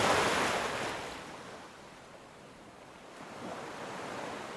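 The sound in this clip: Sea waves wash onto a beach shore as a broad hiss of surf that is loudest at the start, ebbs to a quieter lull, then swells again toward the end, with no voices.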